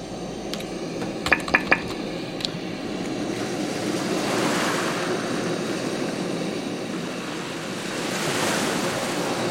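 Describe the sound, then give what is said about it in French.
Sea waves wash onto the shore in a steady, broad roar that swells gently and never quite stops, with a few brief clicks near the start. “Et vous avez la mer, là. Vous voulez la mer?”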